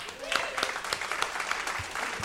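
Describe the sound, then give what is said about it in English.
Audience applause at a monthly movie show marking the end of its season: steady, moderately loud clapping from a crowd, with a voice talking over it. “we need to applaud the folks that come out and see us every month.”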